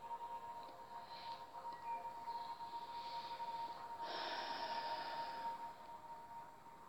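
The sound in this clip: Slow, relaxed breathing during a guided relaxation exercise: faint, airy breaths, a few soft inhalations and exhalations with the last one fullest, over a quiet steady background.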